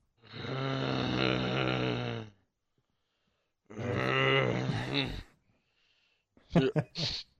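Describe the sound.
A man grunting groggily, as if just woken up: two long, drawn-out voiced groans separated by a pause, then a few short, clipped vocal bursts at the end.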